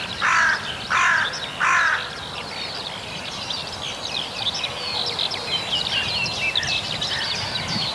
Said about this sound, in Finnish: kiurut ja varis.